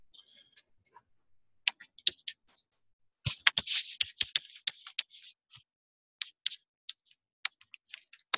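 Tapping and scratching of someone writing out an equation: scattered sharp clicks, then a dense run of quick taps in the middle, then more spaced clicks toward the end, with no talking.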